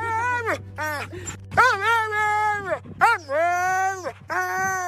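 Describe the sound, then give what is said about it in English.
A husky sled dog from a 21-dog team vocalizes in a series of drawn-out, yowling howls and whines that waver up and down in pitch, with short breaks between them, over a steady low hum. “That is the sound of Harry, one of 21 Huskies who comprise the Braver Mountain Sled Dog Team”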